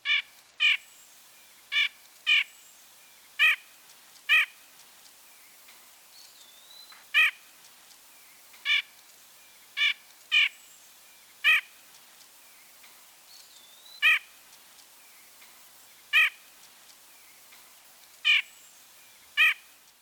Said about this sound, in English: The most commonly heard vocalization of the white-breasted nuthatch is a nasal call. Ank, ank, ank, ank.